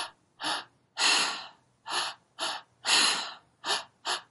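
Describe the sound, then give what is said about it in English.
A voice imitates active three-part breathwork, breathing through the mouth in seven breathy, hissing bursts. Long and short breaths alternate in an uneven rhythm, and there are no other sounds. “It's a three-part breath. It's kind of like they're at an exercise class, a cardio class, but they're using their breath through the mouth the entire time.”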